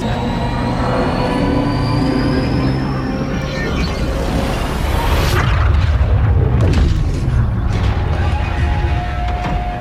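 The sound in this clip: A motor run fast and loud: a continuous, dense roar with a thin whine climbing steadily in pitch, sustained at high volume for the whole stretch with no talk.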